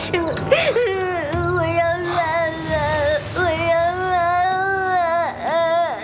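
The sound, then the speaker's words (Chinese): A child cries continuously in long, wavering wails and sobs, with the pitch bending up and down throughout, loud and sustained. “孩子，别哭”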